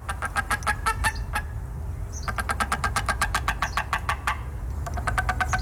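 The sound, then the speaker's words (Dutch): Rapid staccato calls of a Steller's sea eagle, a heavy 7 to 9 kilo eagle, come in three quick bursts of sharp, repetitive yelps over a steady low rumble. “Volgens mij heb je ook nog even een geluidje laten opzoeken. Klopt, hoe klinkt hij dan, de stellerszeearend?”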